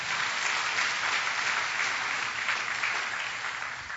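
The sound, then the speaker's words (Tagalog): Congregation applauding in church, a steady dense clapping that holds for several seconds and eases slightly at the end. “Pwede mo palakpakan natin ang Panginoon doon?”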